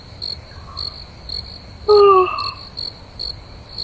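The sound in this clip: A cricket chirps at night in a steady, high-pitched pulsing trill, with a brief louder, lower tonal call cutting in near the middle.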